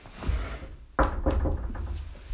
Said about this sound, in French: Elle frappa à la porte